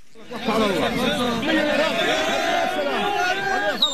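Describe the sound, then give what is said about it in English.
Crowd in Gaza cheering and chattering as families welcome relatives released from Israeli prisons. Many overlapping voices keep up a steady, lively roar with raised calls throughout. “This is the sound of cheering in Gaza. Families welcoming relatives released from Israeli prisons earlier this year.”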